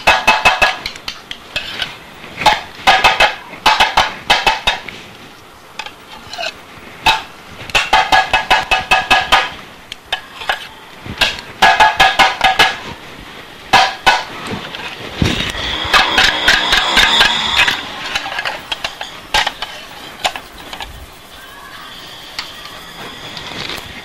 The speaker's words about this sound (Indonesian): Iya. Dipotong ini. Balik lagi. Kalau gitu motongnya jadi daging cincang.